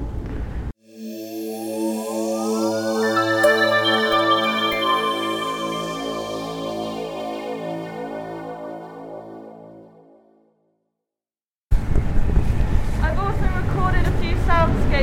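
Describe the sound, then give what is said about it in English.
A ship drives at a good pace through clean, white pack ice. A long, droning, wavering tonal groan sustains for several seconds and then cuts out, followed after a short gap by rougher, noisier crunching. “clean pack ice, and we're just driving through it. Quite a good pace as well.”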